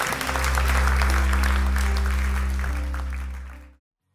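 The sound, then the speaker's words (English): An audience applauds during a church service with steady, loud clapping over a low hum, then fades out and stops. “So come on, one more time. Let's congratulate those people.”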